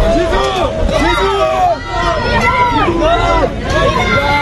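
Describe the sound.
Turkish supporters cheer and chant as the French national team arrives at its hotel: a loud crowd of voices repeating rhythmic chanted phrases over a dense, continuous babble.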